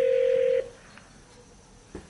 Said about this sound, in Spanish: Hacer llamada de voz, dice acá, llamar.